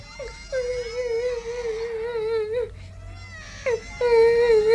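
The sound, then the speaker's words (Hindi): Someone crying in long, wavering, high-pitched wails broken by short catches of breath, moderately loud and rising in intensity toward the end. “अरे ये तो किसी के रोने की आवाज है। कौन रो रहा है और क्यों रो रहा है? देखूं तो ये आवाज कहां से आ रही है?”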